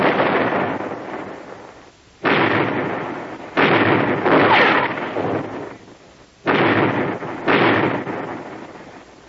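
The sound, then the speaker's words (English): Ship's cannons fire a broadside in a naval battle: several heavy, booming blasts in irregular succession, each loud and rumbling before fading into the next. “Give them another broadside! Hound them, lads! Hound them!”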